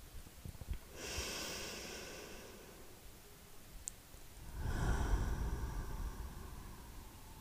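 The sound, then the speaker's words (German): Slow, deep breathing: one long, soft inhale, a short pause, then a longer and slightly fuller exhale. The breath is quiet and airy, with no talk over it. “atme erst einmal tief ein und aus. Und noch einmal.”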